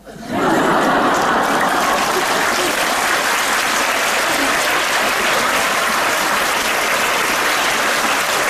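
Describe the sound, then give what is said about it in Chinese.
Loud, dense applause from an audience during a Cantonese talk, with many hands clapping. It starts abruptly and holds steady for about eight seconds. “哇，你要拍手掌。”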